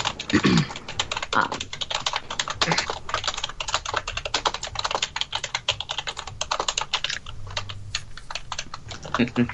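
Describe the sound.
Rapid, continuous typing on a computer keyboard as someone wildly documents spoken narration. Many quick, uneven clacking keystrokes run throughout, with a faint voice occasionally underneath.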